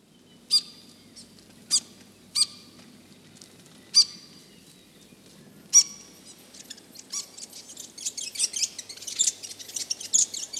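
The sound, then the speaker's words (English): A New Zealand fantail (pīwakawaka) calling: five sharp, high, faint chirps spaced apart, followed by a denser run of quick, squeaky twittering notes. “New Zealand birds. P. Waka Waka.”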